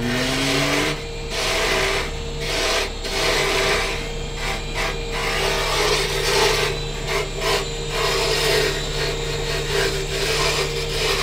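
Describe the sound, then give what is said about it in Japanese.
Ballpoint pen bodies being shaved one by one in a pen workshop, a continuous rasping and scraping with a steady low machine hum underneath. “1本ずつ削っていくんですこれは大変な作業ですね”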